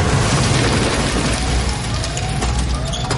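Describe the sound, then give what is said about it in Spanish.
Fragments crashing down from a ceiling in a nuclear plant disaster drama, heard as a dense, loud, continuous roar of rumble and clatter that runs the whole way with no pauses. “Caen fragmentos del techo.”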